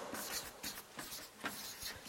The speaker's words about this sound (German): Ich schreibe hier mal Anfechtung.